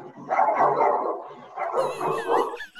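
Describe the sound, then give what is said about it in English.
A dog barks and yips excitedly in a dense, continuous run of calls, with higher squealing, whimper-like tones toward the end. “my dog's going crazy in the background.”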